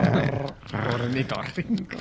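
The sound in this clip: A voice imitating a platypus's little growl, making short, rough, throaty growling sounds in a few bursts, fairly loud and alone.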